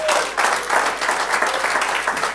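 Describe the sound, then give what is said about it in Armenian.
A church audience claps for the Lord in worship, making dense, sustained applause with a gently pulsing swell that stays loud throughout. “սիրելիներս, եկեք ծափարենք տիրոջը իրականում։”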